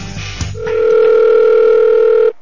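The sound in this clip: A telephone sounds while someone places a call. After a brief clatter, a steady, loud line tone holds for nearly two seconds and then cuts off abruptly.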